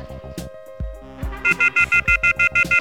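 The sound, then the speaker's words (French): A mobile phone's electronic ringtone, a rapid run of loud, bright, tonal beeps pulsing in a steady rhythm, following a short stretch of other tones at the start. “C'est mon téléphone portable qui sonne”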